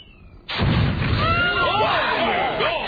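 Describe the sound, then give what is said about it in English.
A bomb explosion erupts suddenly with a loud boom, then rolls into a sustained rumbling roar with crackle, while wavering high tones rise and fall over the tail. “You have bombs? Why do you people bother with spears when you have bombs?”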